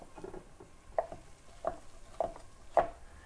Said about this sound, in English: And I forgot to chop those up. So we'll do it now and see if we can do this quickly.